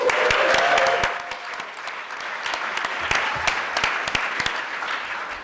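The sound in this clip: Warm applause from the audience at the Science Museum: dense, steady clapping that is loudest at the start and then carries on evenly for several seconds, with no talk over it.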